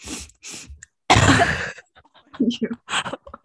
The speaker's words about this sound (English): They're really coughing on your face.